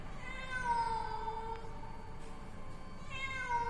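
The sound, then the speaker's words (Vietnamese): A cat meows in a drawn-out, wavering cry, faint and eerie, with one long meow early on and a second rising call near the end, heard alone without talk. “Đột nhiên, quanh đây văng vẳng, tiếng mèo vang lên. Tiếng mèo kêu, nghe đến rợn cả người.”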